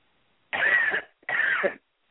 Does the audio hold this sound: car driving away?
no